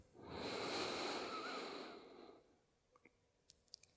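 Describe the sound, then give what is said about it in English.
A deep breath drawn in through the nose during a guided breathing exercise, a long steady rushing inhale of about two seconds that fades away, followed by a few faint clicks. “And we're going to take the deepest breath we've taken all day long. So full breath in through the nose.”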